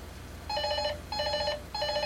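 An incoming call rings a telephone three times in a regular rhythm. Each bright, trilling ring lasts about half a second and sounds alone over a low hiss.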